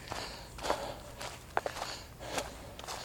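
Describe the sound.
Running footsteps from a jogger out on a morning run, a few irregular soft thuds with an uneven rhythm over faint background noise.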